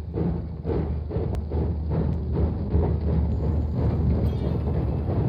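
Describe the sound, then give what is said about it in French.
A train pulling into a station, a steady, loud rumble of wheels and carriages with a few clanks and thuds along the way. “Le train arrive, en gare.”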